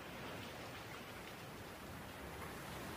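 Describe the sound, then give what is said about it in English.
Steady rain falls as a thunderstorm rolls in over Davao, a dense, even hiss that holds without a break for the whole stretch. No thunder claps or voices stand out. “So, that is the sound of a thunderstorm rolling in here in Davao”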